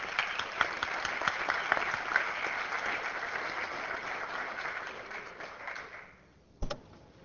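Applause welcomes visitors in a legislative chamber at the Capitol: a sustained, steady clapping from many hands that fades out, followed by one short, sharp knock.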